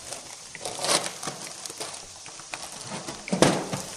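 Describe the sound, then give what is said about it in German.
Food sizzles as it is seared on all sides in a large pan, giving a steady crackling hiss broken by irregular louder pops and bursts, with no speech. “Ihr hört, es botschelt ganz schön. Sollte von allen Seiten schön angebraten sein.”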